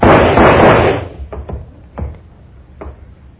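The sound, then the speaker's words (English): Gunshots in a radio drama ring out as a few sharp, loud cracks spaced apart, following a second of dense rushing noise that fades away. “What's going on there? What were those shots?”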